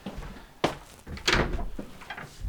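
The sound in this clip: A squeaking door opening, heard as a few sharp thumps and rattling bursts of mid-loud creaking that come in irregular succession.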